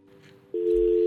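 A telephone line tone after a call drops: a steady electronic tone, faint at first, then jumping loud and holding continuously to the end.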